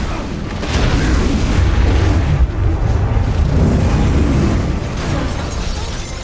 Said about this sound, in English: The van explodes behind them, sending fireballs billowing skyward.